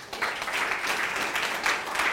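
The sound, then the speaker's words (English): A church audience applauds in a dense, continuous wash of many clapping hands that swells near the start and again toward the end. “give our pastors a clap”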